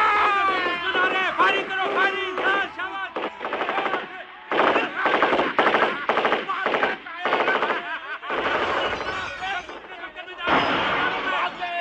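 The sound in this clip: Bursts of Sten gun fire in a battle, with rapid rattling volleys mixed with shouting voices and battle cries. The din is loud and almost continuous throughout.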